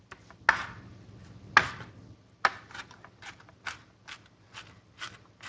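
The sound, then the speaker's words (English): Food being minced with a knife in a home kitchen. Sharp, irregular chops land one after another, some louder than others, with quiet gaps between them and no talk. “Okay, let's get minced up.”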